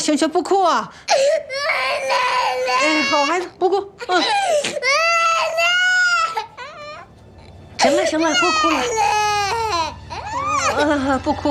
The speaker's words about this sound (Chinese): 行行，不哭啊！好孩子，不哭。行了，不哭了。不哭，不哭。